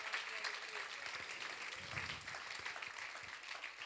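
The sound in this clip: Applause rises from a church audience acclaiming the King during a morning service, a faint, dense patter of clapping with voices mixed in that holds steady throughout.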